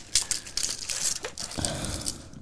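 A plastic fortune cookie wrapper crinkles as it is torn open, giving bright, dense crackles that come in uneven bursts and clusters throughout.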